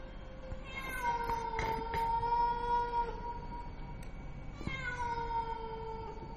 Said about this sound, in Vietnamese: Bất chợt đâu đó vọng lại những âm thanh như con mèo hoang đang kêu ở trên mái ngói, nghe thoáng qua giống như là tiếng trẻ con khóc não nùng.